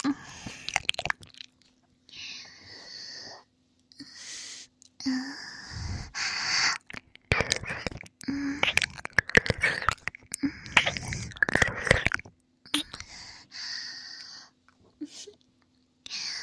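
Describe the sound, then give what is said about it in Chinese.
Soft chewing and biting of hot food comes in irregular bursts with occasional crunches and wet mouth sounds, broken by faint breaths and brief pauses. “一想到这种东西，马上就被我吃到嘴巴里了。”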